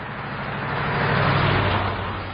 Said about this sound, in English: The hillbilly woman's back in the pickup. She punches the dashboard as the vehicle heads down the road.